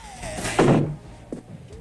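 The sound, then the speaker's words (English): A door is pushed shut with one loud, solid thump. Quieter rustling movement comes before and after it. “He closes the door before Bill can protest.”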